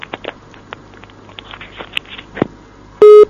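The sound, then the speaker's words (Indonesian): A telephone line tone after a call is cut off: a short, loud, steady electronic beep comes at the end, after a stretch of faint crackling and patter noise. “Terdolah terputus, Pak Andra mungkin dapat menghubungi kembali”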